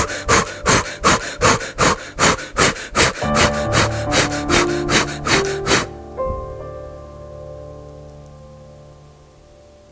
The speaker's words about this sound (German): Atme ein paar Mal ganz schnell ein und aus mit den Armen nach oben. Das hört sich so an.